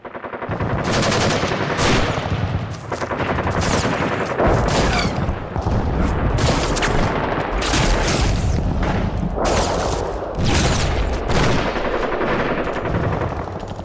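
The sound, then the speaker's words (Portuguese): Gunfire from soldiers charging out of a fort and fanning out in an arc while shooting at a besieging troop: many loud, rapid shots and bursts overlap in a dense, nearly unbroken barrage. “Saíram de assalto, se espalhando em arco, atirando contra a modesta tropa sitiante.”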